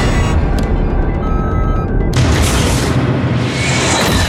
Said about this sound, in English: this scene where they're like flying in a restricted zone and then like the SAM missiles go off like immediately.